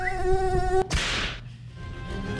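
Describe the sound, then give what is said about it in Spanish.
A mosquito buzzing sound effect in a quiz game: a steady, loud, high whining drone with stacked harmonics, cut off after under a second by a loud noisy whoosh, then a fainter low hum. “Llega. Llega. Llega el mosquito.”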